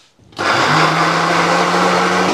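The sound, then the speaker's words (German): A blender whirs as it mixes ingredients into a paste. After a brief quiet start, the motor kicks in abruptly and holds a dense, steady drone with a low hum underneath for about two seconds. “Und dann kommen die da rein. Und dann mixen wir daraus eine fantastische Paste.”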